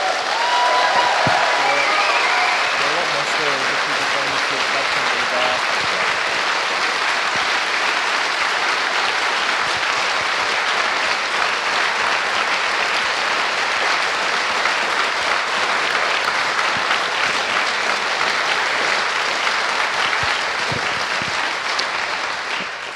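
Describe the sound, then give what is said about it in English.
An audience at a talk applauds the badge team: long, sustained, loud clapping with some cheering mixed in, holding steady throughout. “can we get a round of applause for the badge team?”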